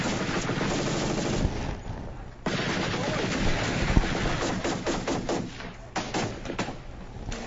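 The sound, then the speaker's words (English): Gunfire from shooters firing across into a cornfield: many rapid shots crackle in dense bursts over a steady rumble, with brief lulls between volleys, for the whole clip. “They're shooting right across into that cornfield there. That's pretty close.”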